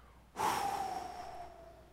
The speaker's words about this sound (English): Now listen, if a human being just breathes into a microphone,